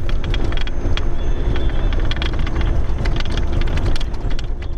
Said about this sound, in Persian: این صدای زره پاشهای حاموی است که نیروهای افغان آن را به شهر ترینکوت، مناطقی که تازه از وجود طالبان پاکسازی شدند، انتقال می دهند.